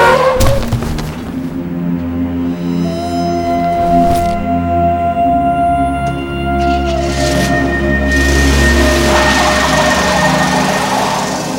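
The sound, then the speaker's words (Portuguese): A car skids and strikes a pedestrian crossing the road, with a loud engine roar and tire noise, a sharp impact partway through, and then a heavy engine rumble that keeps going. “Baque surdo, um corpo revira no ar e volta pesadamente ao chão. Sob as rodas de um carro”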